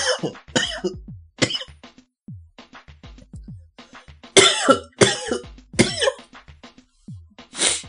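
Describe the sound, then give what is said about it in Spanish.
A person coughs during cold weather, letting out a series of harsh, throaty coughs in uneven bursts, some louder than others, with quieter breaths and throat sounds in between. “Una tosecita, ¿no? Como siempre.”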